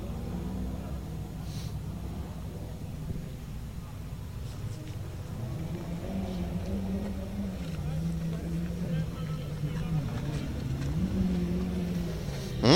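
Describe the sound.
A Ford Escort rally car rolls by with a steady, low engine drone that swells slightly toward the end, fairly faint overall.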